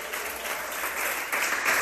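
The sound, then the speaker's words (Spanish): A church audience applauding during a service, a thick, continuous patter of many clapping hands that swells louder toward the end. “Denle un aplauso al Señor en esta hora. ¡A su nombre!”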